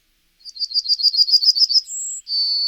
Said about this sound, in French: C'est un oiseau qui est très, très peu visible. Un roitelier.